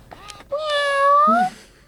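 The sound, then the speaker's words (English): An interactive robot kitten, a companion toy for older adults with loneliness or dementia, gives one drawn-out electronic meow, tonal and fairly loud, with a slight rise and fall in pitch before ending in a lower, shorter note. “Senior service agencies across the country have also given out hundreds of interactive robot puppies and kittens to older adults experiencing loneliness or dementia. Hi, kittens.”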